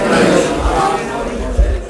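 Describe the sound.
A large crowd of fans roars in Madrid as they celebrate a Spanish national football team victory, a dense, steady wash of cheering voices and noise.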